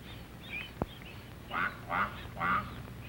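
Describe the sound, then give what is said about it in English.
A mother duck calls to her ducklings in a grassy meadow with three faint, nasal quacks in quick succession, following a single soft click, with a low, quiet background between the calls. “This duckling will get lost, but he hears his mother call and runs to catch up with her.”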